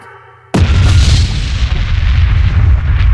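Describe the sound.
An explosion sound effect goes off after a bomb button is pressed. A faint tone gives way to a sudden loud boom that rolls on into a heavy, sustained rumbling roar to the end.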